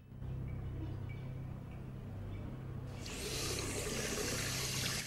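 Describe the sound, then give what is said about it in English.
Water runs from a tap into a bathroom sink as a steady rushing splash. About halfway through it grows louder and brighter, as if the flow were opened further, and no one speaks. “A gloved hand turns on a tap at the sink.”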